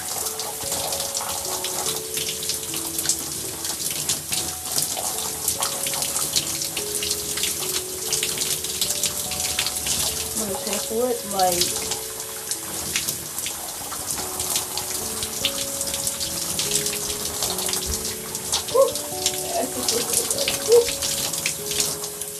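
Water runs steadily from a tap during hair washing, a continuous hiss and splash that stays even throughout.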